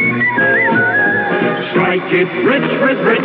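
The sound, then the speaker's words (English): A whistled advertising jingle for Richmond tipped cigarettes: a bright, steady whistled melody over a dense, band-limited backing that fills the whole clip. “Ah, just a minute, though. There's a whistling message.”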